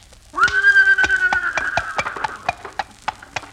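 A horse pulling a buggy sets off with a loud, wavering whinny, followed by many rhythmic clip-clop hoofbeats that continue steadily to the end.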